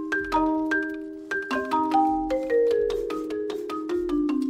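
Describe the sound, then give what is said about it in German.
Music composed and played by a robot: a melodic run of struck, ringing pitched notes, some layered into chords, at a moderate and slightly uneven tempo, each tone sustaining briefly before decaying. “Was ihr hier hört, das ist eine ganz besondere Art von Musik. Sie wurde gespielt und komponiert von einem Roboter.”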